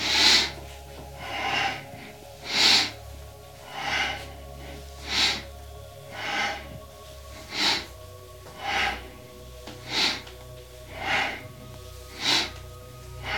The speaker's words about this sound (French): Donc on inspire vers la gauche, on expire vers la droite.